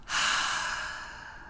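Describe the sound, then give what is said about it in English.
A single deep exhaled breath during a guided relaxation exercise: a soft, airy rush that starts abruptly, swells quickly and then fades slowly over about a second and a half, with no talking. “Take a deep inhale, fill up. Exhale, let it go.”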